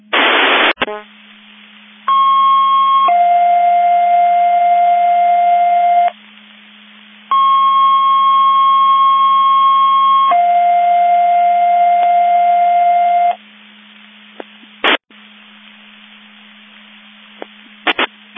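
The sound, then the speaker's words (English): Sheriff's Department Division 5 Mutual Aid Box Alarm alerting receivers sound their test tones over radio: two long sequences, each a high steady tone stepping down to a lower one, between bursts of static and a few clicks. “Sheriff's Department testing Division 5 Mutual Aid Box Alarm Alerting Receivers.”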